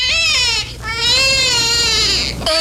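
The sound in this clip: A newborn baby girl cries loudly in a house on an island, giving long, high, quavering wails with short breaks between them.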